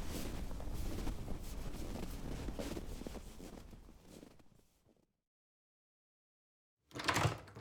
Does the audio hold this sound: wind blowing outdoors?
yes